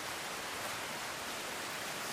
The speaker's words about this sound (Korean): 깎아지른 절벽이 병풍처럼 솟아있고 슈타우프바흐 폭포가 수백 미터 절벽에서 쏟아져 내린다.